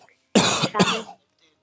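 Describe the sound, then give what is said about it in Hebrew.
A person coughs once in a short, harsh double burst, loud and alone, with silence before and after. “אה? לא, אני השתעלתי.”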